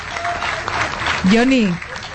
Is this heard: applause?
yes